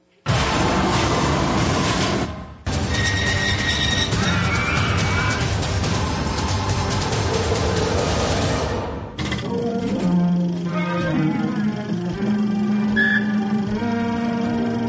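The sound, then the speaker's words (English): Ride noise from the Tower of Terror drop ride at Disney's Hollywood Studios: loud, sustained rumbling and crashing, cut by a brief break, later shifting to a steadier, tonal, music-like sound. “That's the Tower of Terror, Hollywood Studios, Disney, and there is no ride that I have ever regretted more than that ride right there.”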